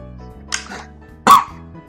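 A person coughs after choking: two short, harsh bursts, the second louder and sharper than the first.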